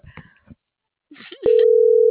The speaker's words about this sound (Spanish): Cierto, sigue sonando.